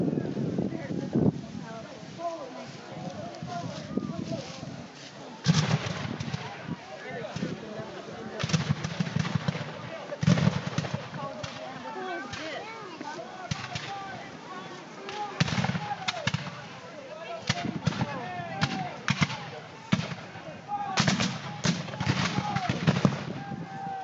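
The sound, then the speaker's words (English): Civil War reenactors in Union and Confederate uniforms fire period weapons in a gun battle near the Borden House on the Prairie Grove battlefield, with many sharp, irregular gunshots and dense volleys crackling at intervals. “When the actors in Union and Confederate uniforms met in a gun battle near the Borden House at the park Saturday, this is what it sounded like as they shot their period weapons.”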